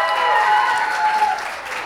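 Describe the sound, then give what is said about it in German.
An audience claps for a child volunteer, giving a short burst of dense, even applause that stays loud and steady throughout. “Ja, Applaus für Mathilde.”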